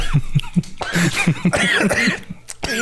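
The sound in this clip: Coughing fit after inhaling a sip of orange drink, a rapid series of harsh, rhythmic coughs and splutters, loud and close, with a little strained laughter.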